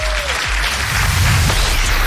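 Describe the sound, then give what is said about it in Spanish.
Applause fills the room at an award ceremony for books about music: a steady, loud wash of clapping over a low rumble. “¡Eso! ¡Aplauso!”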